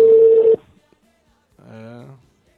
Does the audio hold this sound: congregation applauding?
no